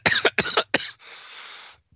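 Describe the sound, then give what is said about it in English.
A person coughs three times in quick succession, each a harsh burst, followed by a softer, drawn-out breathy exhale. “I don't know what just happened there. You started coughing, that's what.”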